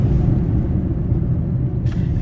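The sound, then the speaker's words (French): A gendarmerie police car drives along a country road, giving a steady low engine and road rumble that holds at an even level throughout. “Et devant nous, une voiture de gendarmes, de la gendarmerie, qui circule sur ces routes et ils font le tour d'un périmètre”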